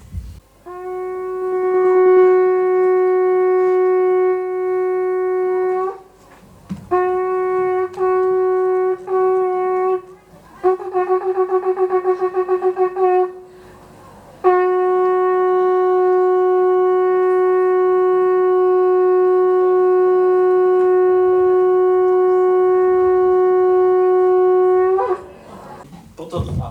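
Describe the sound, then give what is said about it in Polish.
A shofar sounds four long, steady horn blasts. The third breaks into short wavering pulses, and the last is held for about ten seconds. Brief pauses separate the blasts, with no voices. “Więc to był dźwięk szofaru, tak?”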